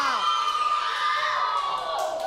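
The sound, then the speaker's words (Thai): A class of children cheers and whoops, a loud continuous burst of excited shouting that holds steady for about two seconds. “หมดเวลาค่ะปรบมือให้ทุกกลุ่มเลยค่ะ”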